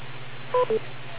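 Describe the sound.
Two short electronic beeps follow each other quickly, clear telephone keypad-style tones over a low steady hum.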